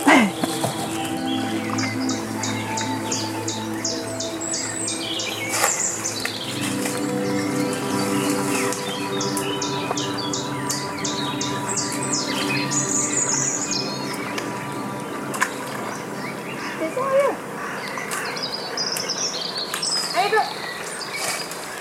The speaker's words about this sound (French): les chants d'oiseaux. Ouais. C'est très apaisant de venir là.